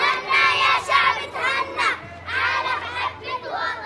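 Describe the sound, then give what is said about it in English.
Syrian children shouting and calling out as they play games in the schoolyard of a former school in Palmyra, now a shelter for displaced families; many excited young voices overlap in a lively, continuous crowd din with bursts of louder cries. “The sound of Syrian children playing games in the schoolyard, but this isn't a school anymore.”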